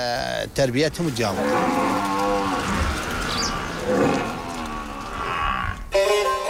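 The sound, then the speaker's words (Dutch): A buffalo in a farming village lets out a long, loud, low moo that holds steady for several seconds, preceded by a few short wavering calls. “Maar waar het dorp het meest bekend om staat, dat zijn de buffels.”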